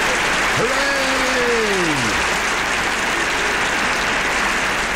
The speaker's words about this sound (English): So let's have some applause for everybody.